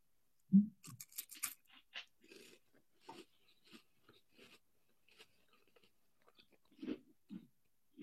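A crunchy, fragile key lime flavored snack is bitten and chewed right against the microphone. One sharp crunch is followed by a series of softer, irregular crunches, with another louder crunch near the end; the sounds are quiet overall.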